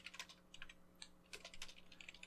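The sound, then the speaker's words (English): Typing on a keyboard, a quick run of irregular, crisp key clicks, some grouped in rapid bursts, faint and alone over a low, steady hum. “I'm gonna type it to our group chat so I can remember.”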